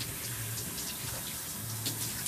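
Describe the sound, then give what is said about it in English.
Tap water runs in a steady, even rush during cooking prep, a continuous hiss of flow with only small shifts in texture as the stream is adjusted, heard alone at moderate loudness. “I kind of adjust the water.”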